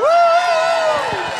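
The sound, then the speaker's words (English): An audience member gives a single loud, sustained whoop to cheer a singer returning to the stage for a second song, with faint crowd noise beneath it. “Let's bring Shannon Knoll back on stage now, live on goal for song number two. Big round of applause for Shannon Knoll.”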